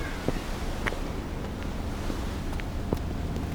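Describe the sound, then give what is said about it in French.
Wind and sea water aboard a boat headed for the islands: a constant broad rushing roar, with a few faint scattered knocks and splashes in the wash. “Sur le bateau, en route pour les îles. Waouh ! J'adore l'odeur de la mer !”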